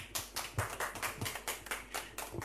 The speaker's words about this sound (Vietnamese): Chúng ta hãy cùng vỗ tay để cảm ơn anh có được không ạ?